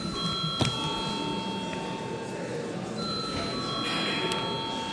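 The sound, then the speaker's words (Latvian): A parliament session bell rings to call members to a vote, a steady, continuous metallic tone that runs through the whole stretch over a dense, noisy background murmur. “lūdzu zvanu”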